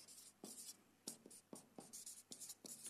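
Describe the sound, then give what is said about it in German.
A Greek word is written down by hand, a faint series of short scratchy pen strokes in quick irregular bursts with brief gaps between them. “Also ich schreibe es euch mal auf.”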